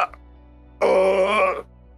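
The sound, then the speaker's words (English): A single drawn-out groan of agony sounds in a tabletop Dungeons & Dragons session set in Ghosts of Saltmarsh. It is a low, voiced moan lasting about a second at fairly steady pitch, with near silence before and after. “And you hear a faint groaning sound off in the distance.”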